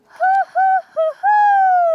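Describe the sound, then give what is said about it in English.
A teacher's voice imitating an owl hoot: three short, loud hooted notes followed by one long, drawn-out hoot that sinks slightly in pitch toward its end. “when the teacher hoots like an owl”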